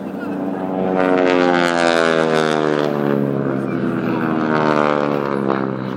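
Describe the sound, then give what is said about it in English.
Loud, steady droning of aeroplane engines at an air day display in Harare, a rich humming tone that swells after the first second and then holds strong and even to the end. “What a fantastic sound this is. We are at the big Africa Air Day here in Harare, and there are a variety of aeroplanes.”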